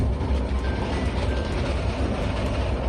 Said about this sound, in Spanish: Vagones antiguos que vibran, como oyes, y que son capaces de hacer caer la mesa del asiento.